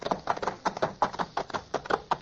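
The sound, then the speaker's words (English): Galloping hooves in a radio drama: a rapid, rhythmic clatter of many hoofbeats, loud and steady throughout, with no voices over it. “Look, the horses are running wild.”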